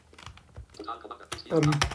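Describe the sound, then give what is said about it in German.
Key presses on a computer keyboard as the Tab key is tapped to step through on-screen options, a few light, sharp clicks spaced unevenly at a quiet level. “Und dann drücke ich wieder Tab, bis ich auf Ausblenden komme.”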